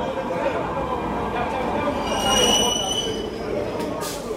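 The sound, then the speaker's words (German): Train noise rises from the tracks of an underground metro station at Plaza de Catalunya in Barcelona at midnight. A steady, loud rumble runs throughout, with thin high-pitched wheel squeals drifting across it. “Die Polizei drängt die Straßenhändler in die U-Bahn-Station. Die Männer warten unten bei den Gleisen.”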